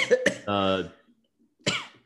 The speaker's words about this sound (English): people cough. And then they cough some more.